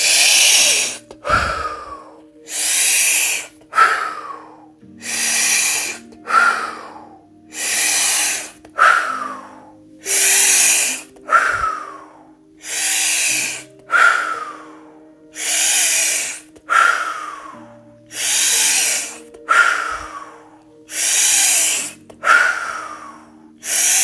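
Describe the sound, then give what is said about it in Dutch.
Deep, forceful breaths in and out follow one another in a steady rhythm during a breathing exercise. Many loud, airy rushes of air are heard with short gaps between them and no talk. “Dus krachtig vol overgave in waar je meer van wil en uit alles wat je los wil laten. Daar gaan we. Adem in.”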